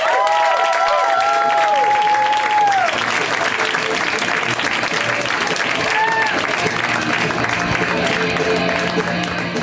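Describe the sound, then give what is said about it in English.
Loud, dense applause from an audience welcoming a performer, with several bright whistles rising over the clapping early on and again near the middle, steady and sustained throughout. “Guys, let's hear it right now for Jack Knight. Give it up for him.”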